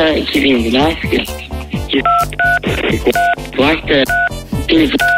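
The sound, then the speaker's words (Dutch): Telephone keypad beeps pressed during an emergency call: several short, clean two-tone beeps sounding among a caller's speech. “als u op de toetsen duwt terwijl dat we bellen, dan hoor ik u niet.”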